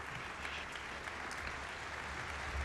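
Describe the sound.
A concert audience keeps up persistent applause after a classical performance as the singer returns to the stage. The clapping is dense and continuous, an even, faint patter with no breaks or voices.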